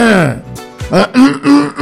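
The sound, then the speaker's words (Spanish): Deliberate throat clearing and forced coughing to bring up phlegm: a few rough, raspy bursts in quick succession, loud and close. “tú agarras y tú haces, toses duro, toses bien, te provocas toser y ya”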